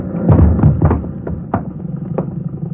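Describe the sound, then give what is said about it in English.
A boat rail breaks in a radio drama sound effect: heavy wooden knocks and thuds cluster at the start, followed by several sharper, lighter snaps. “I just can't understand it. The rail breaking that way.”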